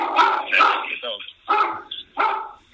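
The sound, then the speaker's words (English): A dog barks at a knock at the door, giving a few sharp barks in short bursts while people talk. “I said before that the dog would definitely bark if someone knocks at the door. Like you were saying just before your dog started barking”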